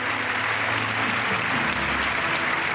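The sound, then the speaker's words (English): Audience applause at the 1990 Horror Hall of Fame award ceremony: dense, steady clapping that holds at an even level throughout, with no voices standing out. “There's a mummy just applauding in the audience.”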